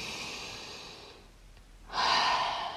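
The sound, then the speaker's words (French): Slow breathing in a relaxation exercise: a long soft inhale through the nose, a short quiet pause, then a louder, airy exhale through the mouth that carries to the end. “on va inspirer par le nez ensemble, je vous invite à inspirer avec moi. Et on expire par la bouche.”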